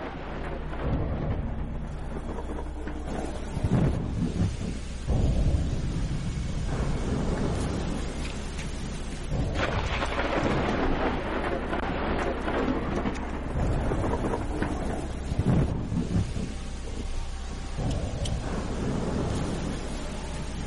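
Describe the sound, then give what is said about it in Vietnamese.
Heavy rain and wind roar through a stormy night with thunder. A dense, steady wash of noise runs throughout, with a few louder rumbling swells rising out of it. “Chỉ biết rằng là đêm nay mưa gió sấm sét kinh khủng lắm.”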